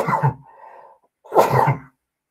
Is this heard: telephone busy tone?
no